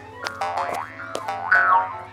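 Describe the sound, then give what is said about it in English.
A springy, wobbling boing marks bouncing in a bouncy house. It repeats as a few twanging bursts that swoop up and down in pitch. “Fine, just one bounce, but then we have to go.”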